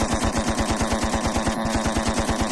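A machine-gun sound effect fires as loud, unbroken automatic bursts in a fast, even rattle for the whole stretch, with a steady low hum beneath.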